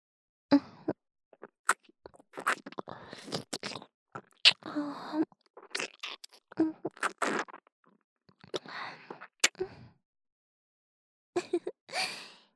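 Wet chewing and biting mouth sounds from a roleplay of eating, with many short, quiet, intermittent smacks and nibbles separated by brief silences, plus some soft breaths.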